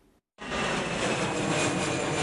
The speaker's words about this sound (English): The summer getaway begins. Holidaymakers arriving at Gatwick Airport.